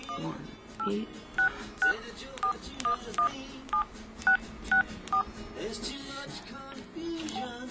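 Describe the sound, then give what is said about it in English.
A telephone keypad dials the number of a music recognition service: a string of short, evenly spaced beeping tones at slightly varying pitches sounds over a steady background with voices. “Let me first call the number”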